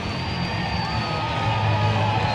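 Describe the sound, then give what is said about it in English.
A baseball crowd cheers a game-tying run in a postseason game, a broad, steady roar of many voices that swells slightly toward the end. “And this crowd is losing it.”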